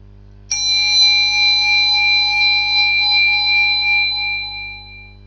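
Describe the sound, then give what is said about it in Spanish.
A meditation bell struck once, giving a bright ringing tone with several clear overtones that sustains and slowly fades over about five seconds, with a faint steady low hum beneath and no talking. “A continuación, va a sonar una campanilla de meditación. Debéis seguir su sonido hasta el final, hasta que se haga el vacío.”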